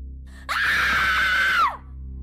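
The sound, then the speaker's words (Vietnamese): A single loud scream rings out from a back garden at night. It is high-pitched and sustained for just over a second, then drops in pitch as it cuts off. “đám gia nhân nghe tiếng hét từ phía sau vườn cũng bừng tỉnh giấc chạy ra xem sự thể.”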